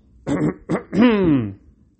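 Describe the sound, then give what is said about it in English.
A voice imitates throat clearing, done slightly louder: three short rough bursts, the last one longer and voiced, with a falling pitch. “When he was behind them, he gently cleared his throat. But it wasn't loud enough, and they didn't notice, so he did it again, slightly louder this time.”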